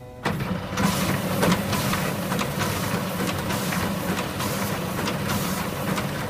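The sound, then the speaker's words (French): A document scanner digitizing baccalaureate exam papers at the French lycée in Rome, a steady mechanical whirring with fast, regular ticking that starts after a brief quiet moment and runs without a break. “Une démonstration donc de numérisation des copies du bac qui passe dans une machine, un scanner, qui réalise toutes les opérations”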